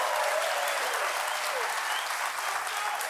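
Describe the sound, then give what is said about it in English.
Audience applause following a speech, a dense, steady wash of clapping that holds at an even level throughout with no single voice standing out. “Okay, you applaud”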